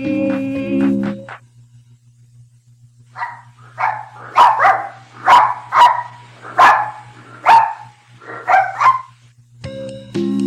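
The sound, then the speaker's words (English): A dog barking in a lively series of many sharp, short barks with brief gaps, loud and with no talk over them. “Did you say a dog barking? That's it.”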